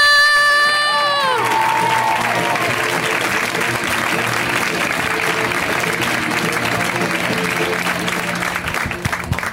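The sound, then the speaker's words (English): An audience at a stand-up comedy show applauds and cheers as a comedian is introduced. A high tone slides downward at the opening, then loud, sustained clapping and cheering continue. “Get it going now. Put your hands together, audience. Get it going. Let's go.”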